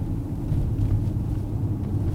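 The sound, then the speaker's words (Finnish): A car driving from Mariehamn toward Eckerö in the Åland Islands, a steady, low rumble of engine and road noise with no talk. “Lähdemme Monikan kanssa Maarianhaminasta autolla kohti Ahvenanmaan länsiosaa, Eckeröä, josta meidän on tarkoitus jatkaa matkaa veneellä Emsjärille.”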